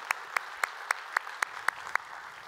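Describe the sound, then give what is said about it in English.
Congregation applauding, heard as a faint, steady run of evenly spaced claps, about eight in a regular rhythm. “So if you would, put your hands together and welcome them into our time of study here today.”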